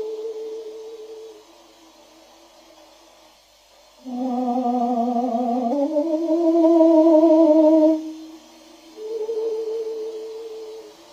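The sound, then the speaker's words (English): A bird sings clear, pure whistled notes that sound much like an opera singer warming up. A faint opening phrase leads into a louder held tone that slides upward in pitch, then a softer closing phrase. “That is actually not the sound of an opera singer warming up. That is the sound of a bird.”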